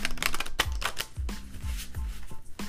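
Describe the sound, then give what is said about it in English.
Cards being pulled from an Angel oracle card deck: a quick run of many crisp, papery snaps and flicks with no talk. “And then I'm going to pull a couple Angel cards.”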